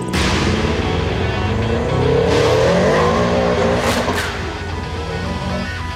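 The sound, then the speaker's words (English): Turbocharged Subaru Legacy with a blow-off valve, its engine revving loud and continuously. The pitch climbs and sweeps through the middle, then eases slightly toward the end. “Jackson Fryer's Subaru Legacy. You could hear a little bit of blow-off valve in there. You could hear some turbo noises.”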